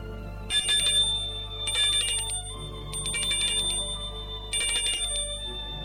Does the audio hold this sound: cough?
no